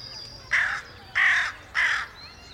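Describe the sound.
Crow cawing: three harsh, raspy caws, evenly spaced and similar in length, standing out clearly over a faint, steady background hiss.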